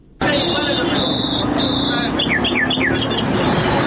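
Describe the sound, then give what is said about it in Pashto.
Wild birds such as nightingales, partridges and mynas, captured in mountain and forest areas, sing at a bird market in central Kandahar: sustained high whistles, then a few quick downward chirps, under a man talking. “دا د کندهار شهر په منځ کې د وحشي مرغانو د پیر او پلور بازار دی دلته پلسکونه بیلابیل ډول وحشي مرغان لکه بلبلان جلان زرکی میناوی او نور”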